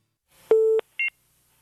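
Telephone keypad tones as an extension is dialed: a steady mid-pitched beep lasting about a third of a second, a short gap, then a briefer, higher two-tone beep.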